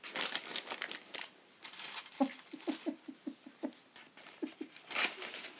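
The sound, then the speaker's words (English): Wrapping paper crinkles and rustles as it is pleated and folded into neat corners. Bursts of papery crackling come in an uneven run of short crisp clicks and swishes, with no talk over them. “now pleat them like that. Fold it like that.”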